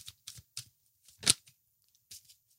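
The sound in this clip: Cards are shuffled for a card reading: a few short, quiet papery riffles and flicks come in separate bursts, with one sharper snap near the middle.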